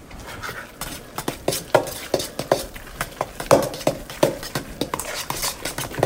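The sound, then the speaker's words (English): Ground turkey being mixed with spices, herbs, egg and cheese gives many irregular soft squelching and scraping strokes, with occasional light clinks. “I feel like, again, I can get a better distribution of the spices and the herbs and the egg and the cheese all mixed in if I put in the turkey by itself first. So I'm going to do that next.”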